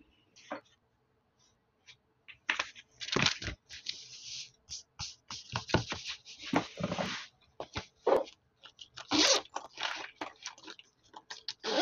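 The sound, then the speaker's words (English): ASMR writing with a pen, close scratchy strokes on paper in irregular bursts of varying loudness, broken by short pauses. “So right now I'm going to be doing some ASMR writing, if you can hear my writing.”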